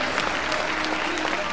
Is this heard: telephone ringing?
no